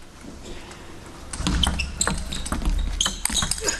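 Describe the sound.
In a table tennis match between Liang Jingkun and Ahn Jae-hyun, a ball clips the table edge. A few sharp ball ticks stand out over a murmuring arena background.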